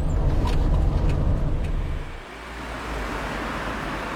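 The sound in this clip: Steady low rumble of a car driving, heard from inside, with broad road hiss that drops slightly just past the midpoint and then settles. No one talks.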